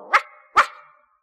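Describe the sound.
Two sharp, loud barks from a dog in a children's counting song, about half a second apart. The second bark trails off into a short, fading tonal ring.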